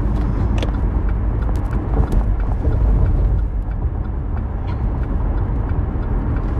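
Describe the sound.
Car being driven: a continuous, even, low rumble of engine and road noise with slight swells, and no voices.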